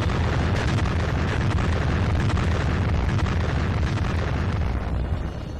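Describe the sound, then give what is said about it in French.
Roar of a French atomic bomb explosion, a dense, loud, continuous rumble heavy in the low end, holding steady throughout and easing slightly at the very end. “Le 13 à 7h du matin, la France faisait éclater sa bombe atomique.”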